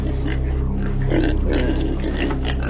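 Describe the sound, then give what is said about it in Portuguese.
Pigs grunt while feeding on a hillside: rough, low grunts and snorts over a steady droning hum. “Acontece que num morro perto dali havia muitos porcos comendo.”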